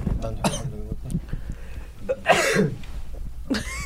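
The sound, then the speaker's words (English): Short bursts of coughing break out among people talking, with a few sharp, rough coughs rising out of the conversation. “coughing. Yeah, coughing.”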